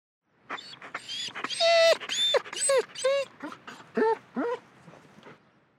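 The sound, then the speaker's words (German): A dog whimpering in a series of high, tremulous whines with wavering, bending pitch. Some cries are short and others drawn out, separated by brief gaps, with no other sound around them. “Stimmt, dieser Hund winselt. Das klingt so.”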